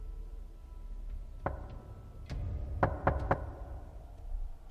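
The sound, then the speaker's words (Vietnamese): Quick, faint knocks on a door: a few sharp raps, the last three coming in fast succession, over a quiet background. “Không có tiếng đáp, chỉ là mấy tiếng gõ cửa, âm thanh nghe nhanh gọn.”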